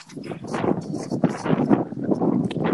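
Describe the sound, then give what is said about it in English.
Strong, gusty wind blows outdoors, a dense and steady rushing roar that buffets the microphone and swells slightly louder toward the end. “Mad wind out here.”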